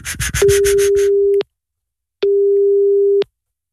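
Telephone line tones as a call is placed: after a brief burst of noise, two long, steady, pure beeps of about one second each are separated by a short silent gap.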